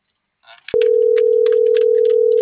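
A steady telephone dial tone sounds while a number is being dialed through an earpiece. It starts abruptly after a brief click and holds loud and unbroken at one pitch to the end, with faint, broken sounds above it.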